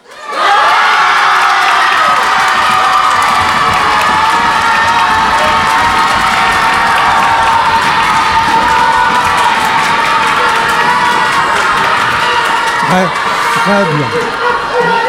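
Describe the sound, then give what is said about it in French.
A crowd of children shouts loudly together on cue, one sustained, dense roar of voices that starts abruptly and holds at full strength for about fourteen seconds. “Donc, à trois, concentrez-vous, respirez bien, inspirez le maximum d'air et braillez.”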